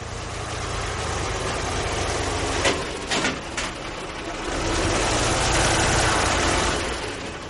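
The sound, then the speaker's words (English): Heavy engine rumble from armored personnel carriers, tanks and other military equipment being loaded onto trucks in Afghanistan: a steady low idling drone with a few brief, sharp knocks near the middle. “That is the sound of armored personnel carriers, tanks, and other military equipment being put on trucks in Afghanistan.”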